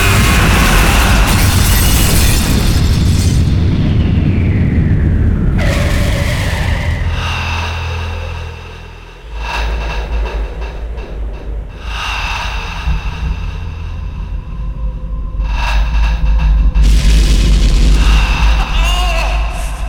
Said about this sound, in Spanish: Las trompas se besan, pero los dientes están torcidos. El ruido de chapa se hace insoportable y el golpe es de otro planeta.